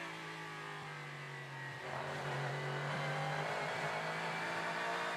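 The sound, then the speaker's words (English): Rumble of a Lexus V8 race car engine during a sports car championship practice session as the car climbs a hill after a turn: a steady, dense engine drone that swells louder partway through, with no voices. “That rumble from the Lexus V8 engine.”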